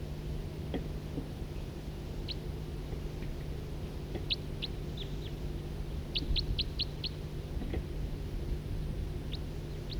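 Two birds calling with two different call types: short, high chirps, some single and spaced, then a quick run of bright notes, heard over a steady low hum with no voices.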